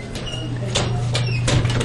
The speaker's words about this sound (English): Actually, let's try this door right here. These doors are hard to open here at the school.